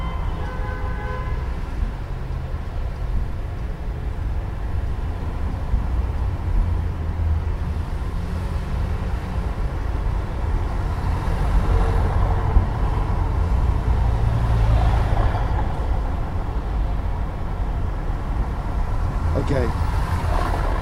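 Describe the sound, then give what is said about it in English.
Average city street noise with traffic: a dense, continuous low rumble and hiss that stays loud and steady for about twenty seconds. “So that's your average city noise.”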